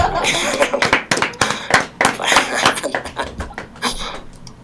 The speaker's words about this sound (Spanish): Bueno, no les gustó mucho, me parece, me aplaudieron.